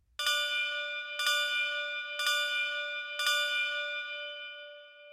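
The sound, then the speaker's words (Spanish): Four clear strokes of a church bell mark the quarter hours ahead of the midnight strike, each evenly spaced about a second apart, bright and ringing, with a long shimmering decay that overlaps the next strike and lingers after the last. “Tocaran 4 campanadas. Serán los cuartos.”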